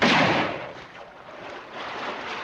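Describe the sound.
Gunfire as a posse shoots at riders crossing a river on horseback: a loud, harsh blast opens, then decays into a sustained rushing, rumbling noise with fainter rough bursts.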